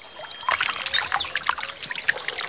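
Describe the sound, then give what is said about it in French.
Water trickling from a water fountain on a hot day: a steady, moderately loud stream of bright, splashy trickling and dripping that runs throughout, with no voices. “Je savais bien que tu ne serais pas loin des fontaines d'eau.”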